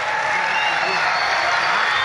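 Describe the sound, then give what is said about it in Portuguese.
Applause and cheering from a crowd for a governor at an official event, dense steady clapping with crowd voices mixed in. “uma salva de palmas ao nosso governador”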